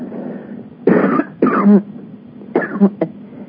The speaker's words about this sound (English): excuse me, and as I cough and choke.